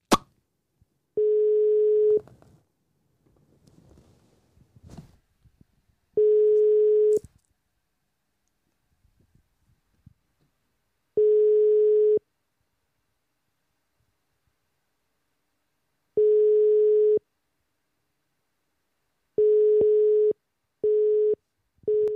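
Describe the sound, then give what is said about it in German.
A telephone call's ringing tone followed by a busy signal: four long, steady beeps spaced about five seconds apart, then a quicker run of shorter busy beeps at the end, with faint noises in the gaps. “es hat ja normal getutet und erst gegen Ende schon dann besetzt”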